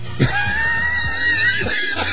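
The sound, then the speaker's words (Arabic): A shrill, drawn-out owl call, a screeching cry that holds a thin high tone for well over a second above a low, rough rumble, with a few brief lower bursts around it. “انا محضر نعيق البوم نعيق البوم صوت البوم نعيق”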